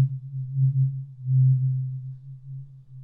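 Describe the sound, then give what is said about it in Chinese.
A tuning fork gives a steady, low, pure tone that holds for about three seconds. Its loudness swells and ebbs gently, with no other sound present. “接下来听完音叉，我们再来听一下”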